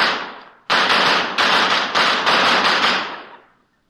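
Gunshots from a couple of guns fired at point-blank range, one pressed against a man's chest: a loud rapid series of sharp, cracking bangs after one earlier burst, ending in a fading tail.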